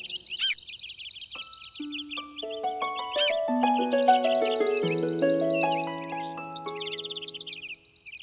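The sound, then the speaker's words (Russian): Birds chirping cheerfully: bright, rapid high-pitched twitters run throughout while a series of sustained chime-like tones rings in and overlaps beneath them. “А птицы, завидев Кижавана, всегда приветствовали его радостным щебетом.”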